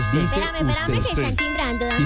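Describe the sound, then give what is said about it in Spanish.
A doorbell rings as a steady electric tone with a bright, even pitch that holds through the whole moment while voices talk over it. “Espérame, que están timbrando.”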